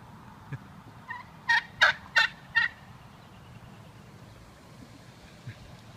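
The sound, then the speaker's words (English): Wild turkeys gobbling on a road: four quick, rattling gobbles in close succession, fairly loud over a steady low background rumble, with a few fainter clucks before and after. “So, why did the turkey cross the road? Yeah, or why don't they cross the road?”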